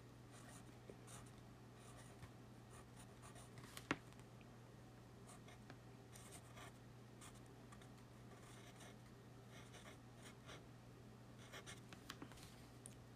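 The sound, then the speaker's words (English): A pen writes on paper during a solo tabletop roleplaying game session, a faint, steady scratching of strokes and small taps running throughout, with no talk over it. “I will write it down now.”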